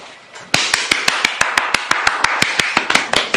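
Exaggerated hand clapping by a single person: many sharp, loud claps in a fast, steady rhythm, beginning after a short quiet moment and continuing evenly to the end.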